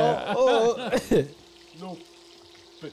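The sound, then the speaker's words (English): Burgers frying in a pan give off a sizzling hiss, heard under people talking. “He's leaning real close to that pan. Burger's time.”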